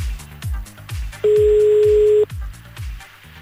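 A telephone tone sounds while a call is placed: one steady, level beep about a second long, laid over a rhythmic thumping music beat.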